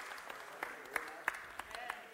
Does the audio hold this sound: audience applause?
yes